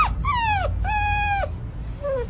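An excited dog, reunited with its owner, cries out in three high, drawn-out whining yelps. The first slides downward in pitch, the second holds steady before dropping, and the last is shorter and fainter.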